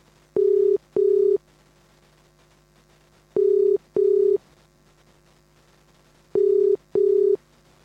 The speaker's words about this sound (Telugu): Call ఎందుకో drop అవుతుంది మళ్ళీ. ఒక్క నిమిషం, నేనే కాల్ చేస్తున్నాను.